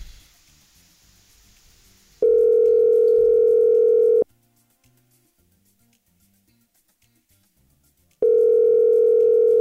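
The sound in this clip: A telephone dial tone plays while a radio listener is being called. Two long stretches of a steady, single-pitched hum are separated by several seconds of near silence, and faint noise comes before the first.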